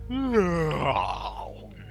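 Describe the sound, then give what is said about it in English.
A voice acts out a loud, drawn-out yawn. The groaning tone climbs briefly, then slides down and trails off into a breathy exhale. “Yawn!”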